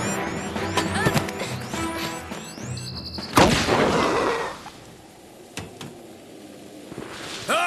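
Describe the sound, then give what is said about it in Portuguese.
A smoke bomb goes off with a sudden sharp burst, followed by a short hissing rush that fades away into quieter noise. “Por que ela não explodiu? Ah, porque é uma bomba de fumaça.”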